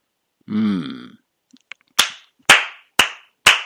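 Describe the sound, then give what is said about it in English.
One person clapping hands in an office. Four sharp, evenly spaced claps ring out alone after a short hummed vocal sound. “love it, love it. I'm applauding specifically.”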